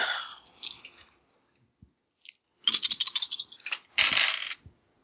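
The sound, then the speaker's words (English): Dice clatter across a surface during a tabletop roleplaying game, a large handful rolled together. Two separate bursts of busy, rattling clicks follow a few faint taps, with no talk over them. “dice roll. I know plus charisma is a lot of dice.”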